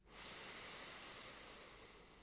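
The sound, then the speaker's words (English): A slow, soft inhale through the left nostril during alternate-nostril breathing makes a long airy hiss of about two seconds, quiet and steady and easing off slightly toward the end. “Inhale through the left nostril.”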